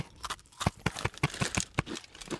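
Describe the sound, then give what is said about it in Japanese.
Someone eating crunchy Pocky chocolate biscuit sticks, producing a quick, fairly regular run of many crisp bites and crunches, fairly quiet and with no talk over them. “今日のスイーツは スイーツ ポッキーさんでございますね。はいはいはいはい はい、はい、ありがとう。 はい、いただきますと。”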